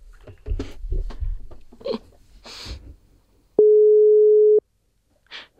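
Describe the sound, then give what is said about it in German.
After the dial button is pressed, a single steady telephone tone sounds loud and flat for about one second. It follows a few seconds of soft breathy noises and faint murmurs, and a brief faint hiss comes after it. “Ich drücke auf Wählen.”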